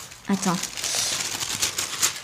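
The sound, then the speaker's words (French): Tissue paper crinkles and rustles as an envelope is opened, a steady papery crackle running throughout at moderate level, with a brief voice near the start. “c'est un plaisir un peu enfantin où tu ouvres l'enveloppe. Et donc là, il y a le papier de soie.”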